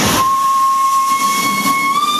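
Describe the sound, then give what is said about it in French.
Steam train whistle on the line from Rocoul to Saint-Agrève as the train departs: a loud, steady, sustained high tone lasting throughout, with a constant steam hiss beneath it. “Le train s'est élancé.”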